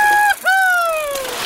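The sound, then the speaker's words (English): A dove coos in the evening at a campsite on the season's first camping trip: a short clear tonal note, a brief gap, then a longer smooth note that slowly falls in pitch. “This is how evening on the first camping trip of the season sounds.”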